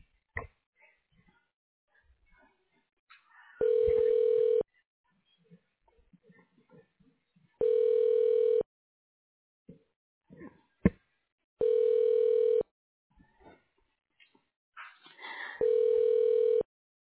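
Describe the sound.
Ringback tone on a telephone line while a call is transferred: four long, even, steady rings separated by short pauses, with faint scattered noises in the gaps.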